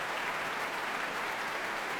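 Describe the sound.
Concert audience applauding the orchestra and its conductor, a thick, continuous roar of many hands clapping that stays level and unbroken throughout.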